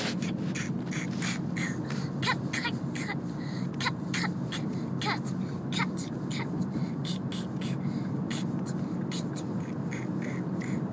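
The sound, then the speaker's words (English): A daughter saws through a Christmas tree with a handsaw at home: many short, scratchy rasping strokes at an uneven pace over a steady low background hum, continuing throughout. “So, this is the sound of my daughter cutting the Christmas tree.”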